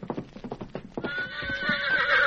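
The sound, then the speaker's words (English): Horse hooves clop in a quick, steady rhythm, then a loud whinny with a wavering, shrill pitch rises over them and holds to the end. “There's a horse for you, Jackson.”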